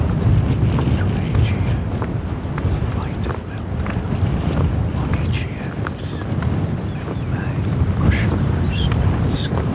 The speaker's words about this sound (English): Wind southeasterly 4. 10 degrees Celsius.